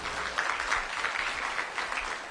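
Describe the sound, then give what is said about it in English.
An audience at a worship service claps along in a steady beat, a soft, continuous patter of many hands keeping time. “Let's clap our hands to God.”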